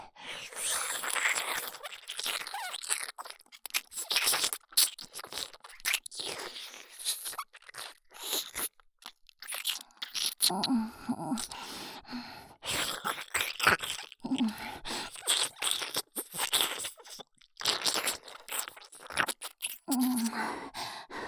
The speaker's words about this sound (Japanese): 言っとくけど、獣人にとって耳なめは特別だから。親愛の証。好きでもないやつとしちゃいけないものだから。